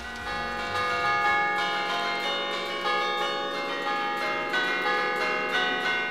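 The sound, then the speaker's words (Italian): Church bells rung from a bell tower playing a waltz or mazurka tune, overlapping ringing tones struck in a lilting regular rhythm, loud and sustained throughout. “anche questo fa parte dei brani che suoniamo molto spesso noi sui campanili, tutti valzer e mazurche”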